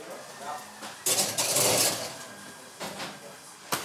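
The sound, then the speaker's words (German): A glass preserving jar for home canning is closed and set into an oven: a longer burst of clattering and scraping, then a few shorter knocks, with a final sharp clink. “Und jetzt mache ich hier zu. Und dann stelle ich sie im Ofen.”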